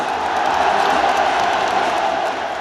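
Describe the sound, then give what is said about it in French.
A stadium crowd roars and cheers for footballer Paul Pogba as he takes the pitch at Roazhon Park in Rennes, a dense, steady wall of massed voices that holds loud and unbroken for the whole stretch. “Le Roizen Park l'acclame comme rarement un joueur adverse ne l'a été.”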